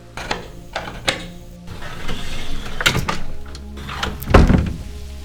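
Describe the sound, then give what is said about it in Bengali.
A door being opened slowly, heard as a series of sharp clunks and rattles that lead up to one heavier thump near the end. “তারপর একটু থেমে আস্তে আস্তে সে দরজাটা খুলল”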